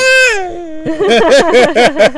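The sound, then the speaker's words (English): A baby makes cute vocal noises while copying someone. A sustained voiced tone comes first, then a lively burst of high, bouncy babbling squeals, loud and close. “Oh my god, that was a really cute baby noise. He was copying you.”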